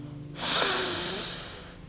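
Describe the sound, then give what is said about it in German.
A deep breath drawn in through the nose, one long, steady, airy inhale that swells quickly and then slowly fades. “jetzt nimm noch mal zwei tiefe Atemzüge.”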